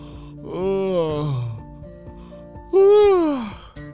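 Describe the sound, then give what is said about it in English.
Two long yawns from townspeople waking up in the morning. Each is a drawn-out, moaning voiced sound that falls in pitch, and the second is louder and arches up before dropping away. “That was a big yawn from those townspeople.”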